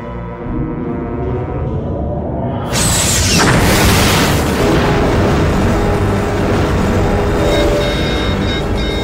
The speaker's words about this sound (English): Our starboard nacelle was destroyed in the blast. We're spinning out of control.